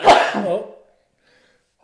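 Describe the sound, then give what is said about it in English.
A single loud human sneeze bursts out and trails off quickly, followed by near silence and a short faint sound at the very end. “Achoo. Thank you. Sneeze in my elbow.”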